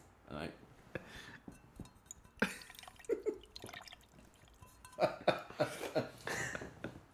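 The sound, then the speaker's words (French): Fingers dipping into water give a few small, irregular drips and light splashes. The faint liquid plinks are scattered among voices. “mes doigts dans l'eau en passant”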